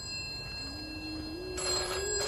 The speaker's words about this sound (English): Answer that bloody phone!